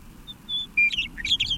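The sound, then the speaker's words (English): Songbird singing a short, polished phrase: two thin high whistled notes, then a rapid burst of bright warbling chirps, clear over faint low background noise. “This is the same bird with a much more polished sound.”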